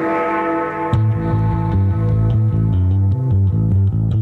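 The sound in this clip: Windows 98 tutorial music plays as a 1990s electronic track: a held synth chord opens, then a pulsing bass line steps between notes in a steady rhythm under light ticking percussion, loud and without voices.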